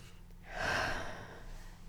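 A single slow, deep inhale during a guided meditation. The airy breath is soft and swells for about a second before fading, over a faint low steady hum.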